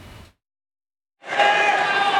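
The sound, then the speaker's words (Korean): Fans applaud players with a loud, sustained crowd roar that starts abruptly after a short silence, following a brief voice at the start. “선수들을 향해선 박수를 치며 따뜻한 반응이 나오기도 했습니다.”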